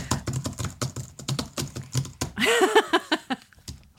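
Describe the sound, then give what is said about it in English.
Rapid typing on a computer keyboard, a fast, steady run of clattering key clicks that thins out toward the end. “I'll actually type it now. That was for comic effect.”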